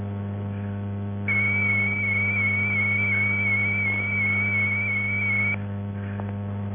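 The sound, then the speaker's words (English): Binary zero tone from a Datel 600 modem running at 1,200 bits per second, a pure, high whistling pitch sustained unchanged for roughly four seconds, fairly quiet above a constant low hum. “A binary O sounds like this.”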